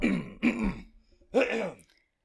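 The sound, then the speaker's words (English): A person clears their throat in three rough, voiced bursts, the last following a short pause, with no talk around them. “Having to clear my voice 50 million times.”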